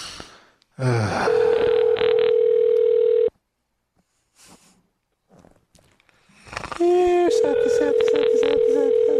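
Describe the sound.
Telephone line tones sound as a call is answered on a live call-in line: a long steady beep over noisy bursts, a quiet gap with faint clicks, then another loud tone with crackle.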